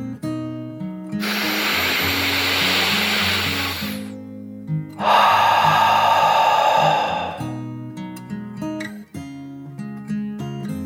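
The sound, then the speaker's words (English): A deep dragon breath in and out, performed in a told story: two long, loud, breathy rushes of air, the first about three seconds and the second a little shorter, over soft tonal background music. “She took another deep dragon breath, in and out.”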